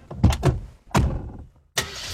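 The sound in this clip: Car noise during a ride: a few loud bursts of engine sound split by short gaps, with a brief near-silence before the last burst starts.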